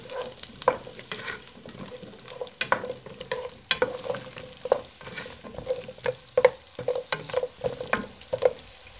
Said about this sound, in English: just add the radishes. Just stir to coat.